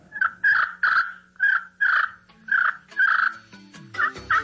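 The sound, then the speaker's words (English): A slate turkey call, worked by moving a wooden striker in circles on a hand-sized piece of stone or slate, gives a quick series of many raspy, high yelps that imitate a wild turkey's calls. The yelps are loud and come in an uneven rhythm. “It's a piece of stone or slate fashioned to fit the hand, and a wooden striker that's held vertically to the slate, and it's just worked in a circular back and forth motion and produces a turkey sound.”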